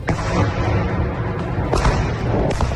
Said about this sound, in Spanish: Así suenan las bombas sobre la ciudad de Donetsk, gobernada por fuerzas prorrusas